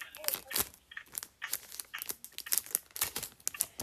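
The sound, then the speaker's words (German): A Pokémon trading card booster pack from the Sword & Shield Darkness Ablaze expansion is torn open. Many quick, irregular bursts of crinkling and ripping wrapper follow one another, with no talk. “Dann mache ich jetzt Schwert und Schild Flammende Finsternis auf. Also ich mache halt erstmal hier so.”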